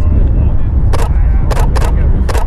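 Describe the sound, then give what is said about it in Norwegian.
Camera shutter clicks as a photo is taken beside a road where buses run: four short, crisp bursts over a steady low engine rumble. “Jeg tar et bilde av deg og så går jeg og prater med han.”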